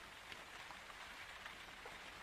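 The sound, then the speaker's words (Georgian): Rain falls outside in a steady, soft hiss, dotted with faint scattered patters of drops and no voices. “გარეთის წვიმს და ჯერ ადრე”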